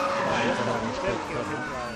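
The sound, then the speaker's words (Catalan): A car drives off with its tires skidding, a dense, loud rush of engine and tire noise that runs unbroken for about two seconds and blends with voices. “Marxat amb el cotxe nou.”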